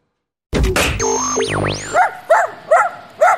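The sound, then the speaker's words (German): A dog barks four times in a row, each bark short and sharp, following a burst of cartoonish boing and sweeping electronic effects. “Hund im Radio?”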